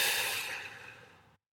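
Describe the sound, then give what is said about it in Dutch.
A deep breath during a relaxation exercise: one airy, rushing exhale that starts fairly loud, fades steadily over about a second, then stops. “adem wellicht even diep in. Door je neus en uit door je mond.”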